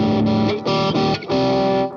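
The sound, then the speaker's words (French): Electric guitar chords played through a Pineapple distortion pedal: a few loud, sustained, heavily saturated chords with short gaps between them, the sound thick but clearly defined, ending on a quieter ringing tail. “Même avec de la disto, moi je joue pas mal d'accords, donc j'aime bien quand la disto elle est très claire, qu'elle respecte bien le jeu. Voilà, c'est le cas avec la Pineapple.”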